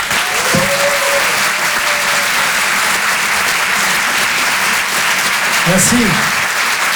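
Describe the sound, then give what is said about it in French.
Audience applause and cheering for a performer introduced at a live show: dense, steady clapping throughout, with shouts and whistles rising above it near the start and again near the end. “Je vous demande de l'encourager et de faire un maximum de bruit, s'il vous plaît, pour Adrien Montowski.”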